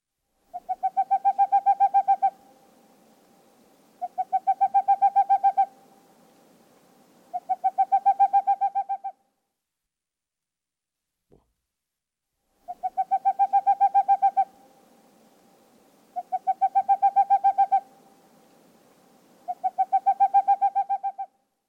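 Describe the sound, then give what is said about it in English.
A boreal owl calls in rapid, staccato hooting trills, six even bursts of about two seconds each with a long pause midway, mellow and fairly low-pitched against silence. “Boreal owl.”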